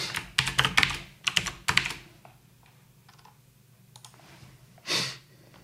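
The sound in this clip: Typing on a computer keyboard while writing comments: quick clusters of clattering keystrokes at first, then sparser, softer taps and one louder muffled knock near the end, with no talking.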